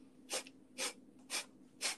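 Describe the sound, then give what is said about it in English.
Four short, forceful exhale bursts from a breathing exercise come in an even rhythm about half a second apart, each a quick airy puff, fairly faint and with no talking. “So basically, you're supposed to exhale in like short bursts and inhale in very tiny micro inhalations. So it kind of sounds like this.”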